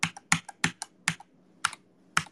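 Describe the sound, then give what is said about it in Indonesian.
Typing on a tablet keyboard: a few separate, crisp keystrokes at an unhurried pace, several falling in quick pairs, with short quiet gaps between them. “Mulai dah ini tablet keyboard.”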